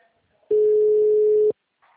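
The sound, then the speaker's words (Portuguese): A single ringing tone plays on an outgoing phone call from a bank analyst to a customer. It is one low, steady buzz lasting about a second, alone between stretches of near silence, with a faint sound after it. “Claro, tá chamando.”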